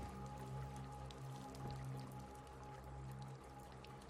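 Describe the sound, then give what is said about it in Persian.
Soft water sounds of a paddle moving through water as someone rows a boat, a faint, steady watery wash with small drips and splashes and no voices. “هانیوا پارو میزنه.”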